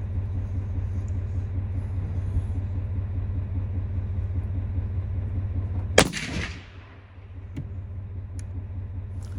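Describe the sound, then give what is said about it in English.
Rifle shot: the first round through a new Tikka rifle, fired while zeroing at 100 yards. A single sharp, loud crack cuts through a steady low rumble and decays quickly, and the rumble then returns. “So I'm sure you could tell the shot there wasn't too awful loud.”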